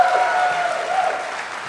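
A live audience in St. Louis breaks into brief, dense applause, the clapping steady and fairly loud and thinning slightly toward the end.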